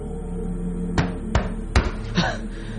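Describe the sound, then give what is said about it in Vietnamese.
Knocking on a door inside a house: four sharp knocks spaced unevenly over about a second and a half, standing out clearly above a steady low background hum. “Có tiếng gõ cửa”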